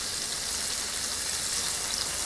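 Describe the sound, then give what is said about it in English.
Tofu sizzles after being scattered into vegetable oil over a high flame in a cast iron skillet. The frying is a steady, faint, hissing crackle with no pauses. “You can just use regular vegetable oil. All right, I'm scattering the tofu in right now.”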